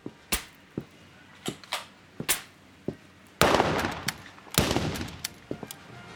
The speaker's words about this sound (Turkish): O da ne? Tabanca mı? Durun durun, korkmayın. Zararsız bir şey bu, belli. Herkes ayrı bir noktayı hedef alıyor. Artık öğrenelim neredeymişiz. Meğer atıcılık salonunun tam ortasındaymışız.